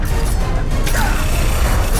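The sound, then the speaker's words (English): Crashing and rumbling as a giant ape smashes down through several floors of an unfinished building, a loud, dense, continuous roar of breaking debris lasting the whole two seconds without a clear single impact. “The ape crashes through several floors of the unfinished building.”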